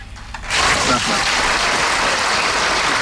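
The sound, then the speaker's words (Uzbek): Applause for a congratulated quiz contestant bursts in after a short quieter opening, then holds as a loud, dense, even wash of clapping to the end. “Va sizni tabriklaymiz. Mana olqishlar sizga.”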